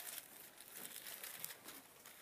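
Soft, continuous paper rustling and crinkling as the thin pages of a Bible are turned to Romans 16:22, faint and steady with small flicks throughout.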